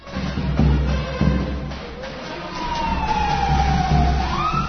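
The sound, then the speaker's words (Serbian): An emergency vehicle siren wails through the streets of Belgrade on New Year's Eve, a steady tone that slowly slides downward, then climbs again near the end, over a constant low traffic rumble. “Trubači i sirene hitnih službi na ulicama stvaraju atmosferu šarmantnog haosa.”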